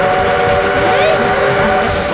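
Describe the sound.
A steam train whistle blows loudly and steadily for the whole stretch, a sustained, shrill tone over a rushing hiss of steam.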